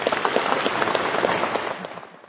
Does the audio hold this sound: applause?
yes